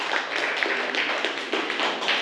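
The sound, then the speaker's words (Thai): Students clap for themselves at the end of a lesson on choosing pipes. The dense, steady applause continues evenly throughout with no talking. “นักเรียนเก่งมากวันนี้ปรบมือให้ตัวเองอีกครั้งหนึ่งค่ะ”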